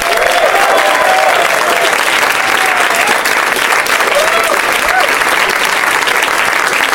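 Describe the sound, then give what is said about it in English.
Audience applause at a live comedy show as several comedians are welcomed onstage: dense, steady clapping that holds at an even loudness for the whole stretch, with a few whoops rising above it. “Yay, yeah, keep clapping loudly into my ear.”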